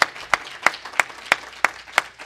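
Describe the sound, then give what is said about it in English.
Applause from a church audience honoring a member's first salvation, heard as a sparse run of about eight sharp, evenly spaced claps at a steady rhythm, fairly quiet, with no talking over it. “So give him a round of applause.”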